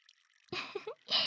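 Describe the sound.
Clean water is poured out to rinse someone off, landing in two splashing, gushing bursts separated by a brief pause. The second burst is the louder and brighter one, and no one speaks during it.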